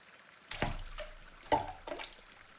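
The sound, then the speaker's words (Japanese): Water sloshing as feet are slowly lowered into a hot bath: three soft splashes with gentle trickling between them, quiet and unhurried, no talking. “腰をかけて、ゆっくりと、おみ足を湯につけてくださいませ。”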